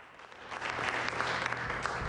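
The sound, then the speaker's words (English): Steady applause with dense, crackling claps at an even level throughout, a low hum running underneath and no clear voices. “John applauds the audience.”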